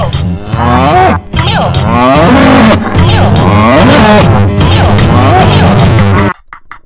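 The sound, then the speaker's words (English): A person imitates a cow mooing with loud, drawn-out, wavering moos, split into a few long stretches by brief pauses before ending in quieter noise. “I already mooed”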